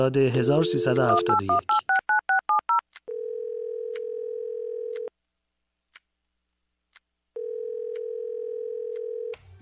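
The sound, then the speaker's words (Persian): Telephone dialing tones from a call to Tehran: a quick run of touch-tone beeps, then two long, steady ringing tones separated by a silent pause. “تلفن کردم به تهران که به هر دوشون تبریک بگم.”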